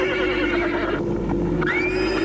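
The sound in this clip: A horse whinnies as it is being readied in a stable, a continuous, shrill whinnying sound over a steady tonal hum, ending with a brief rising squeal.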